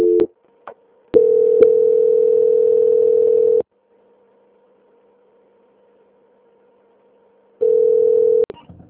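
Telephone tones during a call transfer to a bank's quality-control line: a short tone with clicks, then a long steady mid-pitched tone of about two seconds, several seconds of silence, and another steady tone near one second.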